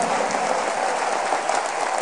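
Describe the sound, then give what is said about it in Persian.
Dense, steady applause from an audience clapping along at a festive celebration, a continuous loud wash of many overlapping hand claps with no pauses or voices. “خیلی شور دست میزنیم، حیف نیست دست پایین باشه، بیاری دست تو بالا کف بزن.”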